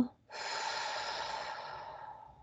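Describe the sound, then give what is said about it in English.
A deep breath drawn in through the nose, heard as a long, airy hiss that starts strong and slowly fades over about two seconds. “we're going to just take that deep breath. I'm going to hold it at the top and then let that go.”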